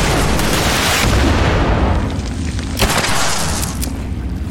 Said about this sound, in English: This is the guy with the rocket launcher! Somehow all of those rockets hit the box in front of me.